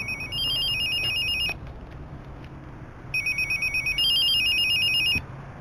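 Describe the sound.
A telephone rings with a high, electronic warbling ringtone in two bursts separated by a quiet pause. The second burst pulses briefly before holding steady.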